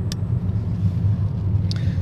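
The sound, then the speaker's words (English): Steady low engine and road rumble from a car driving into Hitchin on the A602 during roadworks, continuous and even throughout, with two brief faint high ticks. “So I'm driving into Hitchin on the A602.”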